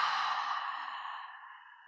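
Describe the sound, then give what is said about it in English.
A single long exhale through the mouth during a deep-breathing exercise, a soft, breathy hiss that fades steadily over about two seconds. “Exhales through the mouth this time.”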